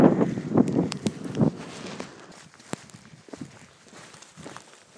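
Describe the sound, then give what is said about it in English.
Footsteps tramp through heather on a moorland walk, a few crunching, rustling steps loudest at the start, then fading to soft, sparse brushing sounds. “Okay, so we'll continue tramping through the heather and update you more further along.”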